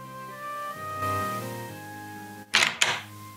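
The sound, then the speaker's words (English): Door locks click open at an apartment entrance. Two sharp, loud mechanical clicks come close together near the end, after a sustained, steady tonal background. “The locks click and the two enter.”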